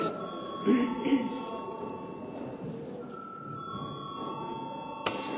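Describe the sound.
An electric bell rings in the Latvian parliament to call a vote. It is a sustained, faint ringing tone that runs through the whole clip, with voices murmuring beneath it.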